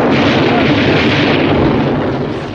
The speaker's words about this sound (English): He lights a Molotov cocktail and throws it into the cabin from the porch. Bowden, you dummy, there's dynamite in there! Everybody hits the deck and the cabin explodes in a dramatic blast.